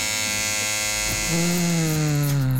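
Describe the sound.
Electric shaver buzzing in a barbershop: a loud, steady, harmonic mechanical drone that changes tone midway, turning lower and slightly louder, with no talking.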